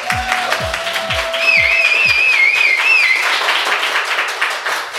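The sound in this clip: An audience applauds and whistles at a live talk recording in the Y pop-up store in Berlin, with steady dense clapping throughout and a warbling whistle rising over it in the middle.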